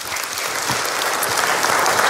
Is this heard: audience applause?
yes